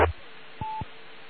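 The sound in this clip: A telephone dialing tone: a single short, steady touch-tone beep of about a fifth of a second, framed by two low clicks and following a brief burst of noise at the start, over a faint steady hiss.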